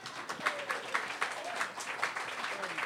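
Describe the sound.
An audience applauds as a storyteller is welcomed to the stage, many hands clapping in a moderately loud, steady patter with voices mixed in.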